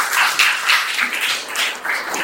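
Audience applause welcomes guests at a college Sanskrit department event on Kalidasa's literature in Jalgaon, a loud clapping that rises and falls in quick, pulsing swells.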